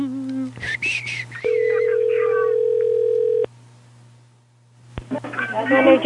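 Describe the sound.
A telephone call ringing out to a nail salon: a single steady ringback tone of about two seconds over a low constant hum, with people talking before and after it.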